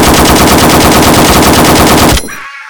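Loud, sustained automatic gunfire: a rapid, unbroken burst lasting about two seconds before cutting off abruptly.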